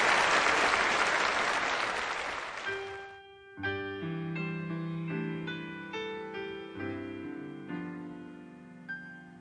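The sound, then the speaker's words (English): A church audience applauds its guests, a full burst of clapping that fades after about three seconds, followed by sustained music with held, tonal chords. “Will you give them another hand and welcome them again?”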